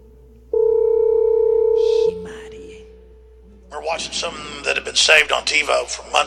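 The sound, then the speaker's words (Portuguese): A telephone dial tone as a call is placed: a steady, loud tone holds for about a second and a half, then quiet follows before people begin talking. “Liga aí, por favor, pro Donald Trump, quero falar com ele urgentemente”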